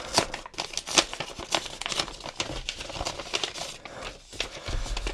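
A paper envelope is opened during a magic trick, producing many quick crinkling and rustling bursts of paper, fairly faint, in an uneven stream of crackly handling noises.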